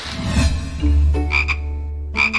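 Croaking of a large toad, a steady low buzzing drone joined by two bright, rapid trilling bursts, loud and alone with no voices.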